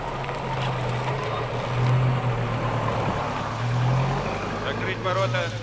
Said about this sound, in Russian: На территорию института заезжает черный автомобиль.